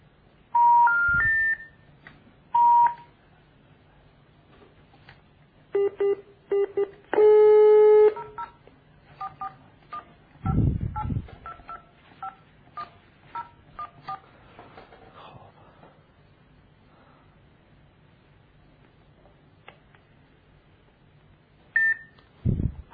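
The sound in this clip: A telephone number is dialed in short bursts of bright touch-tone beeps separated by pauses, over a faint steady hum. A last brief pair of tones comes near the end.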